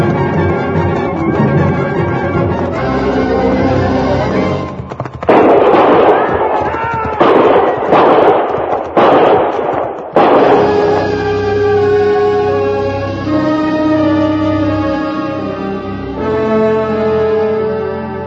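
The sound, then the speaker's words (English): A volley of gunfire rings out at the mouth of a canyon in a frontier drama: several loud, sharp blasts burst in quick succession across the middle of the passage, with quieter sound before and after. “I knew from the sound of that first volley what had happened.”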